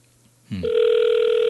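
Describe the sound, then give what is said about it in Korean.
Ringback tone of a call placed to a landline phone: after a brief low burst, a steady, continuous mid-pitched tone sounds alone and holds without a break to the end. “2839 전화 좀 받으시면 좋겠네요. 일반 전화로 전화를 걸고 있어요.”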